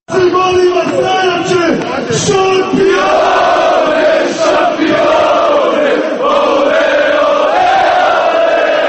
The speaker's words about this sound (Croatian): Šampionska pjesma navijača i fudbalera ovog tima orila se sinoć sarajevskim naseljem Grbavica.